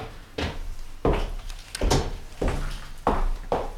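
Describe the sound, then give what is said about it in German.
A door opening outside gives a series of heavy, dull wooden thumps and bumps at a fairly even pace, loud and alone with no voices. “als draußen die Tür ging”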